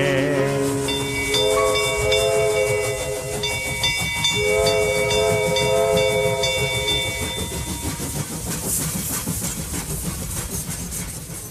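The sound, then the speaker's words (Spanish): A travelling steam train gives off sustained whistle-like tones over a constant loud hiss. A dense, rapid chugging texture carries on beneath and grows more prominent as the tones drop away toward the end. “Por el mundo voy feliz, en este hermoso tren.”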